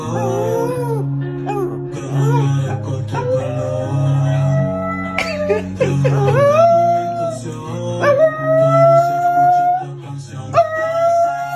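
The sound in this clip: A dog howls along to a song as it plays. Several long, wavering howls rise in pitch and ring out loudly over the steady music.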